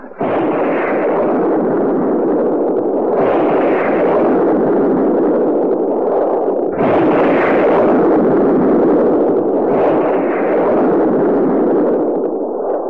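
A rocket launches at the end of a countdown with a loud, continuous roar that holds for many seconds and swells in strength a couple of times.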